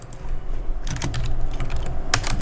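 Typing on a computer keyboard: rapid, uneven clicks of keystrokes, some sharper presses standing out, over a constant low background hum.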